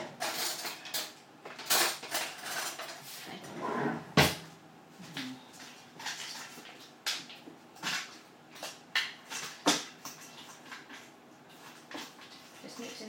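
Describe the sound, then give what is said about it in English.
A fork mixes pet biscuits and meat in a dish, producing many irregular scrapes and clinks of metal against the bowl, with one sharper, louder knock midway and quiet gaps between bursts. “you can have that and some meat, which I will mix in with a fork.”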